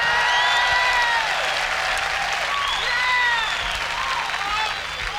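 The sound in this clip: Warm audience applause welcoming a performer onto the stage, a loud, dense wash of clapping that holds steady for the whole stretch.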